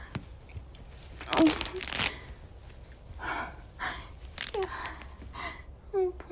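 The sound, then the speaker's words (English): Tights are being torn, with a few sharp, papery ripping bursts among breathy gasps and voice sounds. “Tear my tights, I don't give a fuck. I've got plenty of them at home.”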